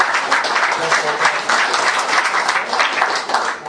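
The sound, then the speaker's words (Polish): Audience applause at a bilingual church service, a full, dense round of clapping that stays loud and steady throughout with no pause. “Would you please give him a hand? Dajcie mu oklaski.”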